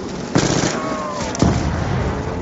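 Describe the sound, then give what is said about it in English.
Two sharp explosive blasts in a zombie video game as burning zombies blow up after being knifed, spaced about a second apart with a thin whining tone between them. “Oh, if you knife zombies that are on fire, they still blow up.”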